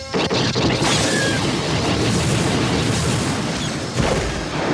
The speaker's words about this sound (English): Jaina thought as she tightened her index finger on the main firing control, loosing a solid burst from all four of her lasers